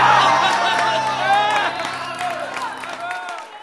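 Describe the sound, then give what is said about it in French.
Audience applauding and cheering, a dense burst of clapping mixed with shouting voices that thins out and cuts off sharply near the end. “Et ils applaudissent.”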